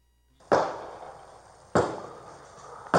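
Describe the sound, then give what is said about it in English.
Three sharp gunshots, fired from a car at sheriff's deputies in Florida and captured on a body camera, crack out at roughly even intervals, each loud report trailing into a long decaying tail. “Body camera footage from the Volusia County Sheriff's Office shows the heart-pounding moments two teens open fire on deputies.”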